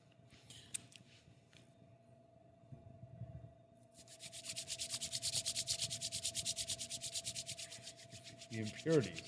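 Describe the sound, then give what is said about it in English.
Hands rubbing together with beer on the fingers: a quiet start gives way to fast, steady back-and-forth friction strokes, many in a row, dry and hissy, building to a louder finish. “So you're rubbing it, finger in the beer, rub it in your hands.”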